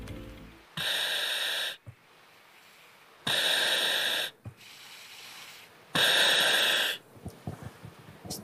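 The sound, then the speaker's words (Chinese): A firefighter's breathing apparatus, worn with full firefighting gear, gives three loud rushing hisses, each about a second long. Quieter gaps with short clicks separate them. “我只想给大家听一个声音，就是他现在戴上这个呼吸机时候的声音，我们来听一听啊。”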